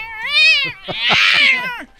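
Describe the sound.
A human voice imitates a cat meowing, with two drawn-out, wavering meows separated by a short gap. The second meow is louder and more strained.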